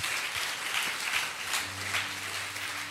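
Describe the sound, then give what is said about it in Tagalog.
Applause from a church audience, a steady, fairly faint patter of many hands clapping that continues evenly through the whole stretch. “Palakpakan nga natin ang Panginoon.”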